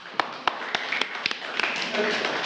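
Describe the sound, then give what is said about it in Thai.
A classroom of students applauding a presenting group: scattered, sharp claps that quickly thicken into denser, continuous clapping, fairly loud. “ปรบมือให้กับกลุ่มที่2ด้วยค่ะ”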